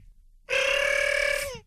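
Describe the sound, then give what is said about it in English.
A single telephone ring: a bright, steady electronic trill lasting about a second, tapering off with a slight downward slide at the end. “that's my phone ring.”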